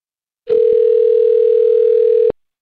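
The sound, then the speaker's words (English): A telephone dial tone at the start of a phone call: one loud, steady, unbroken tone lasting a little under two seconds, with a click at its start and end. “Well, Matthew, let's just call Gianna right now and see if we can get her to talk to us. Hang on.”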